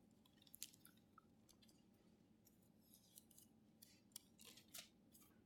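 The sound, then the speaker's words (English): Crisp, soft rustles of Bible pages being turned as a group looks up a passage, scattered bursts of papery swishes coming irregularly over a low steady hum, quiet throughout. “Good to hear all those pages turning. That lets me know I got my hearing aids on.”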